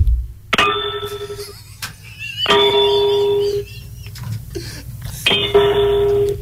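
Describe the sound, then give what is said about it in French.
A spoon or metal utensil knocks on a metal lamp three times, each strike a bright clang that rings on with clear overtones and slowly fades, with small taps and clicks in the gaps. “Est-ce que vous avez soit une cuillère, soit un ustensile? Oui. Est-ce qu'il serait possible de cogner, mais mettez-moi près de la lampe. OK. Donc, juste cogner sur la lampe.”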